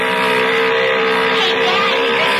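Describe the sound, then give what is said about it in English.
A boat motor running steadily with a loud, constant droning hum that holds an even pitch and level throughout, with no revving or pauses. “Yeah, motor sounds okay.”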